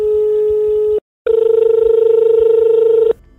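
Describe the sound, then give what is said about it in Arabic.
Telephone line tones from a call to the head of veterinary vaccine monitoring at Cairo airport: a steady tone, a short silence, then a longer steady tone with a fast pulsing flutter that cuts off. “بداية دعونا نتصل برئيس قسم متابعة اللقاحة البيطرية بمطار القاهرة دكتور أحمد الخولي”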